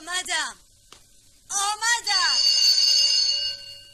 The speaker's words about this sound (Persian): بعد مفتش جلوی خانه خوشنویس می ایستد، نگاهی به اطراف می اندازد، دستش را روی زنگ می برد.